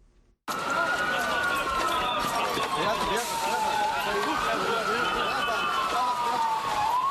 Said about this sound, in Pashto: دا د هغه امبولانسونو ژغونه دي چې د غازی انتاب په سیمه کې زخمیان روغتونونو ته انتقالوي.